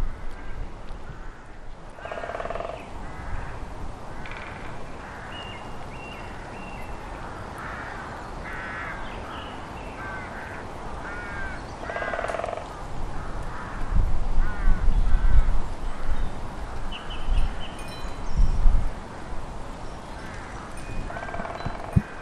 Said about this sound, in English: to listen to woodpeckers in your own garden in Ireland. I never thought that would be the day. So I'm just going to let you have another listen. The male is the one that's doing the loudest and longest drumming.